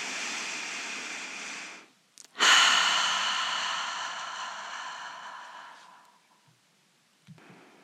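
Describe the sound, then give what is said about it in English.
A cleansing breath during a guided meditation, drawn in through both nostrils and released through the mouth: a soft, steady inhale, a brief pause with a faint click, then a louder, long breathy exhale that gradually fades to quiet. “And now do a cleansing inhale through both nostrils and release completely through the mouth.”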